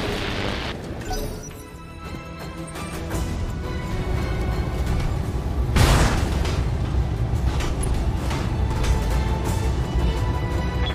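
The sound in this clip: Energy-weapon fire and explosions rage in a mech combat video game, including PPC shots. Rumbling booms build after a quieter start, one sharp loud blast lands near the middle, then crashing noise continues.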